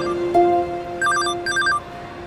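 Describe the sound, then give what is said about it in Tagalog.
A phone ringing with an incoming call from mother: a couple of steady electronic beeps lead into two short bursts of high, warbling chirps. “Tumatawag si Mami?”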